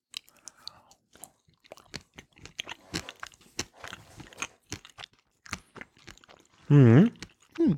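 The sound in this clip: Chewing and biting as someone eats sausage with Roleski Polish mustard: many soft, moist crunches and mouth clicks in an uneven rhythm, fairly quiet, with a short louder burst near the end.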